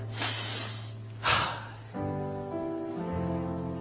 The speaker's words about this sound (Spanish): pude respirar así, mire.